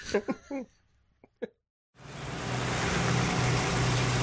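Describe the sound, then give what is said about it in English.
Car driving, a steady broad road and engine rumble that starts after a short stretch of talk and a brief silence, then holds at an even level to the end. “So we're driving to the show?”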